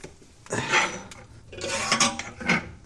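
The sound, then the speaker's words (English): Metallic clanks and rattles as a fire is lit in a wood-burning stove, in a few irregular bursts of clattering metal with no voices. “I decided to let you listen to me lighting a fire in my wood-burning stove. A lot of people have asked about that, so listen to this now.”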